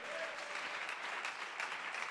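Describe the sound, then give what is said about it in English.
A church audience clapping hands in praise, a dense, steady wash of applause held at an even, fairly faint level throughout. “Come on, give the Lord a hand clap of praise.”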